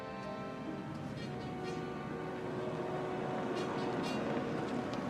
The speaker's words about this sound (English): Outside, Matt motors up the drive in Peter's Jaguar.